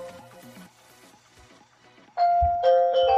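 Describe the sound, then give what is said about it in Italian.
Telephone ringing with an electronic melodic ringtone: soft repeated tones at first, then a louder, bright sustained run of chime-like notes. “scusate un attimino che suonava il telefono”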